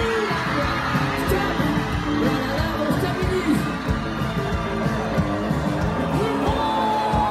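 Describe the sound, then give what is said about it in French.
Crowd noise from the audience at Festidal, a family charity music festival in Gorron, Mayenne: a steady, dense roar of many voices with scattered cheers rising from it throughout. “j'ai envie de vous faire découvrir l'ambiance monumentale de ce sacré public.”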